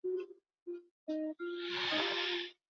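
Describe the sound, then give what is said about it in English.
Deep breathing in a guided breathing exercise: a few short, soft voiced breaths separated by pauses, then one long, breathy, hissing exhale. “Taking the next deep breath, filling our belly and our chest all the way up.”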